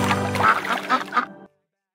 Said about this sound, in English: Mother duck said quack, quack, quack.